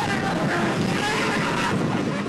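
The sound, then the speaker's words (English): A roller coaster sound effect: a steady, rushing roar of wind and rumble, broad and continuous at even loudness throughout, with no voices. “Cue the roller coaster sound.”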